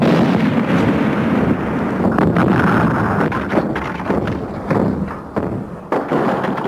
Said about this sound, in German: Das war genau richtig. Die Explosion hat das Ding umgekippt.